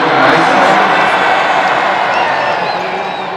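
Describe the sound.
A large crowd cheers and claps as Pope Francis is driven past through the rows of people. The roar of voices and applause is loud and dense, easing slightly toward the end.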